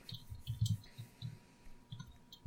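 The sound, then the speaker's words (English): Ten-sided dice rolled during a tabletop roleplaying game, two more added to a roll: a few faint, scattered clicks and soft rattles in short bursts, with no talk. “Alright, roll 2 more dice there”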